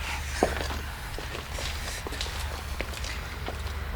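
Footsteps walking across the ground beside a shed: a series of soft, irregular steps over a steady low background hum.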